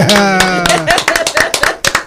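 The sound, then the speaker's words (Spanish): A small group applauds a radio operator. Quick, scattered hand claps start under a sustained shouted voice and then continue briefly on their own. “vamos a darle un aplauso para nuestro operador. ¡Hay que aplaudirlo! ¡Claro que sí!”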